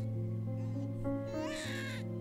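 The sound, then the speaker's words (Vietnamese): An abandoned baby crying, a thin, high wailing cry that swells and wavers over a steady low tonal backdrop, fairly faint throughout. “Nó không có mẹ, nó bị bỏ rơi, chả biết là nó tủi thân hay là nó đói sữa. Suốt những đêm dài, nó khóc đằng đẵng, khóc ngặt nghẽo. Cũng như thế này đấy.”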